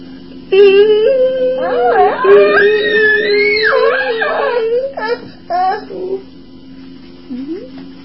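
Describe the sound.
Whimpering, crying sounds with wavering, high-pitched tones that rise and fall, held for several seconds, then a few short bursts and a faint final whimper after a quiet gap.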